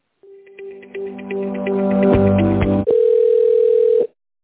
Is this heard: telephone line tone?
yes

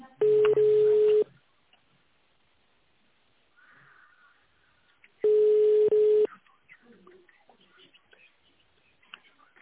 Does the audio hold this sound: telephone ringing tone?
yes

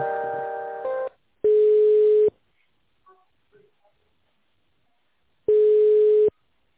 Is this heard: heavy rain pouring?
no

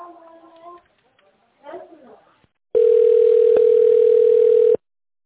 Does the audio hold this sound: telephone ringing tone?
yes

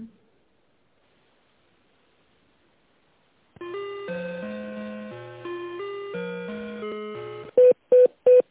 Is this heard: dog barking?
no

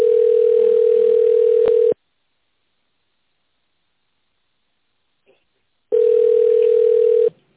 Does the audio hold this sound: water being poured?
no

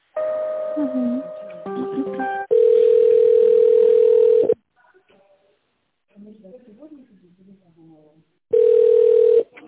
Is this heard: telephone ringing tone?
yes

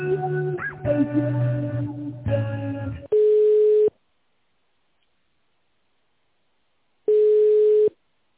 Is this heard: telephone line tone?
yes

